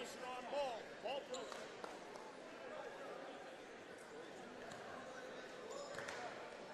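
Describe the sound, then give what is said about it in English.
A basketball is bounced a couple of times on the court before a free throw in a boys' high school game. The faint, short thuds sit under quiet crowd chatter and voices. “Baker eyes the rim, bounces it a couple of times, crouches, fires.”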